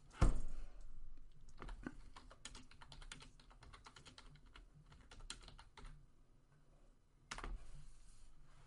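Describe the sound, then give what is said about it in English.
Rapid clicking of a computer keyboard as a message is typed, with many quick keystrokes in uneven bursts, a short lull, then a final cluster of taps. No voices. “I was just going to type him a message, too.”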